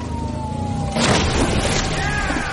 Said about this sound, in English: Dispatch, he just crashed into a tree.